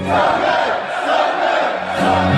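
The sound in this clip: A large crowd chanting its own invented response to a sing-along pop song, a loud massed shout of many voices in unison that swells, dips and rises again.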